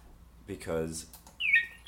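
A person imitates a bird with the mouth, giving a few raspy, squawking calls that end in a shrill, whistled chirp; the sounds are fairly loud and there is no speech.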